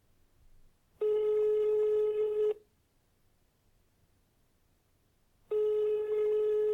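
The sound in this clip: Telephone ringback tone while placing a call: two steady single-pitch rings, each lasting about a second and a half, separated by a long quiet gap.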